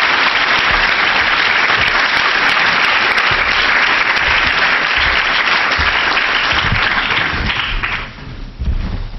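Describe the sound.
Audience applause welcoming a speaker at a university lecture, loud, dense, sustained clapping that keeps an even level throughout and then thins and fades near the end.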